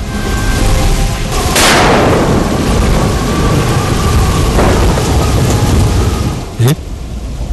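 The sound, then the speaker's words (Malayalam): Heavy rain and wind outside, a dense, steady wash of noise that holds at the same level for the whole stretch, with one brief sharp crack near the end. “പുറത്ത് കാറ്റ് വീശുന്നു. നല്ല മഴ.”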